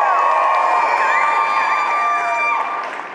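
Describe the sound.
A crowd at a live talk event cheers and whoops, a loud sustained roar with shrill sliding whoops riding over it that eases off slightly toward the end.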